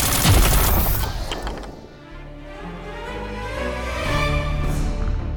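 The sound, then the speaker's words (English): Rifle fire erupts in a tense military standoff: a loud, sharp burst of gunfire at the start rings out and decays, then a rough, rumbling noise swells and continues. “That was Leone's rifle.”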